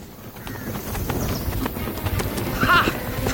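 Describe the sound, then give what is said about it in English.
Galloping hoofbeats of a horse carrying a rider across fields, a rapid, steady clip-clop over a continuous rumbling background. “Lady Joanna, disguised as a soldier, galloped across the fields of France”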